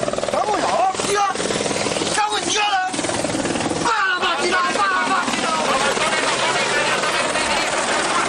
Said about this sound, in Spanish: El sonido del helicóptero